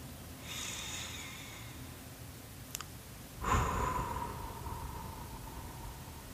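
Deep breathing, air drawn in through the nose and let out through the mouth: a soft, airy inhale, a pause, then a stronger hissing exhale that trails off, faint and alone.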